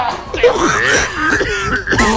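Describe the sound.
A voice imitates an elderly grandparent's rasping cough and throat clearing: a loud string of strained, groaning vocal sounds with wavering pitch, heard alone.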